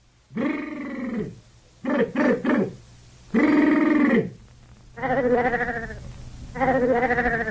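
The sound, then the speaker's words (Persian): A sheep caught in thorns on a dark, rainy night bleats five times in separate calls. One call stutters in quick pulses, and the others are drawn-out, wavering cries that stand alone. “ای خدا و صدا چی نه؟ یا صدا گوسپه نه؟”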